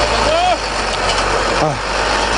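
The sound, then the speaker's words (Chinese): A rotary tiller engine runs at full power while tilling farmland, giving a loud, steady mechanical drone throughout with a couple of brief higher tonal sounds over it. “旋耕机马力全开，不到半小时的时间就将一亩多的农田耕完。”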